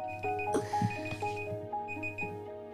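A timer alarm goes off during a game of putting on as many socks as possible. It rings with a steady, bright electronic tone over faint background bumps.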